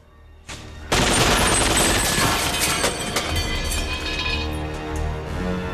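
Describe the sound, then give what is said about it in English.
Automatic gunfire sprays into a dim, cavernous garage full of dust-covered military vehicles; after a quiet first second the burst erupts suddenly and roars on continuously as a harsh, loud rattle. “John raises his gun and sprays bullets into the darkness.”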